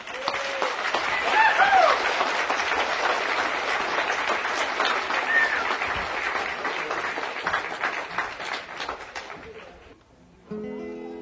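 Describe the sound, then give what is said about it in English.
Audience applause welcoming folk guitarist Doc Watson: sustained clapping that peaks early, holds for several seconds, then gradually tapers off and dies away near the end. “Let's really get behind him and listen to him sing close. Give him a nice hand, Doc Watson.”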